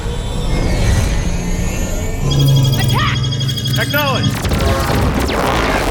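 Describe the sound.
In a video game space battle, allied starfighters fire on enemy Collector fighters. Rapid shots, deep booms and crashing explosions play under speech, with a dense burst of blasts in the middle.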